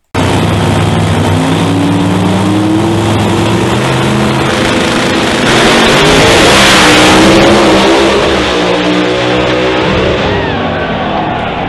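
Loud engine roar of a drag racing car on a qualifying run from the start line, a dense, harsh, continuous drone filling the whole clip and swelling slightly midway.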